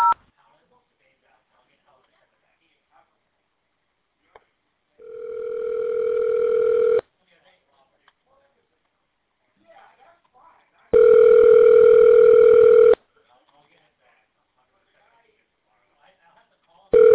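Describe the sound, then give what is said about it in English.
Telephone line tones on a call to a jewelry store: two steady, buzzing tones, each about two seconds long, separated by long stretches of near silence. “To speak to a team member, please dial 0.”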